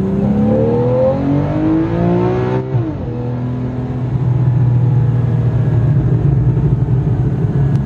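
A brand-new Porsche sports car engine revs at a roadshow event. Its loud, buzzy tone climbs steadily, breaks with an abrupt shift partway through, then settles into a sustained, heavy roar.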